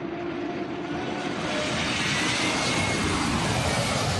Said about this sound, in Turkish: Stadyum üzerinde alçak uçuş gerçekleştiren uçaklar çatıya teğet geçti.